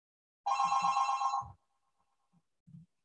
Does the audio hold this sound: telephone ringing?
yes